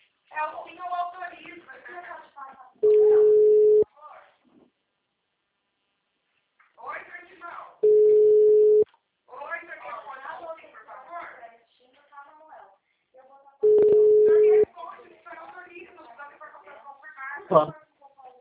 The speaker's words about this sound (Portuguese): Oi, caiu a ligação? Tá ouvindo?